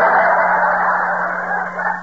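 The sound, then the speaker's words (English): A bird squawks in one harsh, raspy, sustained call that holds steady and loud for about two seconds, with no talking. “Yeah, that bird again. Shut up, you molding pest.”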